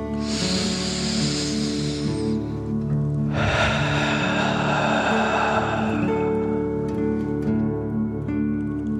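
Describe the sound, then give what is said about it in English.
Slow, deep breathing: a long airy inhale through the nose, a short pause, then a longer, fuller exhale, both soft hisses over a steady sustained musical drone. “Feel the cool air coming in your nose and filling your tummy. Softly breathe out nice warm fire.”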